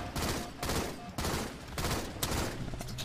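Video game gunfire crackles in dense bursts of rapid shots, loud and continuous with brief dips between volleys across the whole stretch.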